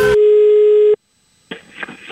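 A telephone line tone sounds as one steady, mid-pitched beep lasting just under a second. It cuts off into a short silence, then muffled, noisy line sounds return.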